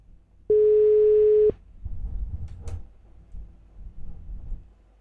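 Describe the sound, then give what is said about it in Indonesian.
A telephone tone after a call is cut off: one loud, steady single-pitch beep lasting about a second, followed by continuous low rumbling background noise. “Nampaknya terputus tadi Bang Tony. Oke. Boleh coba menghubungi kembali ya.”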